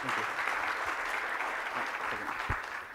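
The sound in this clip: Audience applause welcoming a speaker at the Exponential event: dense, steady clapping that fills the whole stretch at an even, fairly loud level, with no distinct voices standing out.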